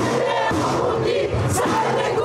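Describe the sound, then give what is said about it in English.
Crowd noise from a gathering outside the Iranian embassy in Berlin after the death of Iran's president. Dense, loud and continuous, with many overlapping shouting voices. “Outside the Iranian embassy in Berlin, a crowd gathered.”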